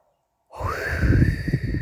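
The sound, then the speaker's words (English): After a moment of silence, a slow, deep breath is drawn in and let out, a steady airy rush that swells louder and holds, with no talk. “I want us to take a deep breath. Go ahead. In and out.”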